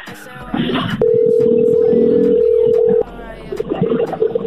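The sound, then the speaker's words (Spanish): A telephone sounds a steady, unbroken tone for about two seconds while a number is dialed, with voices talking just before and after it. “Ahí está marcando. Ahí está marcando.”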